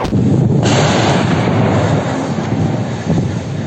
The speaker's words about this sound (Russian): надел каску, достал из сумки дробовик, и начал расстреливать из него всех, кто попадался ему на глаза. Закройте кабинет! Какой-то стреляет. Чувака застрелили!